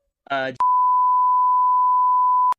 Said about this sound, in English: Am I beeping stuff? What am I doing? My God, we're bleeping that.